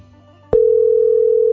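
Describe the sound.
Telephone ringback tone from an outgoing call that goes unanswered: one steady mid-pitched electronic tone lasting about a second, starting and stopping cleanly after a quiet lead-in.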